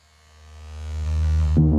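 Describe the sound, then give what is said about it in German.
A vibrator switched on gives a low electric buzz: a steady, harmonic hum that grows louder over under two seconds, then shifts and brightens sharply near the end. “Ich mache jetzt einmal kurz meinen Vibrator an.”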